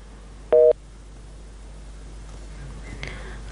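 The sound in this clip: A telephone busy tone sounds after a dropped call: one loud, short electronic beep, followed by faint line noise.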